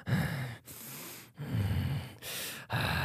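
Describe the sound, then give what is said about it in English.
A person imitates heavy breathing: a steady series of loud, breathy inhales and exhales in alternating rhythm, with brief pauses between breaths and no talking. “If you need to layer in any heavy breathing, just isolate that audio right there and you've got it.”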